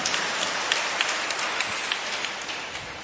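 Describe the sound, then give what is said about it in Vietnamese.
Dense, even applause from an audience, a continuous crackling wash at fairly low level with no talk over it. “xin một tràng hoa tay để chúc mừng các vị thánh.”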